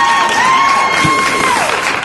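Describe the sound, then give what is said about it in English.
Applause sound effect played from a button: loud, dense clapping mixed with crowd cheering and a sustained whistle tone that drops in pitch near the end. “I can't find the applause button. There it is.”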